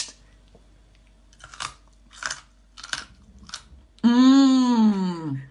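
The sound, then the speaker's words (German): Crunchy snack nibbled and chewed during a blindfolded taste test: four soft, evenly spaced crunching bites, then a loud drawn-out vocal sound from a person, falling in pitch. “Ich knabber hier mal rein und dann wird das in der nächsten Woche aufgelöst, falls wir uns noch erinnern, was wir gegessen haben.”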